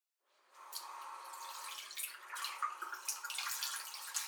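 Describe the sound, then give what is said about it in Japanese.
Tap water runs as hands are washed before cooking, starting after a moment of silence and continuing as a steady, bright hiss with uneven splashing as the hands move under the stream. “温めてる間に準備しますね。どんな料理を作るにしても、まずは清潔第一です。”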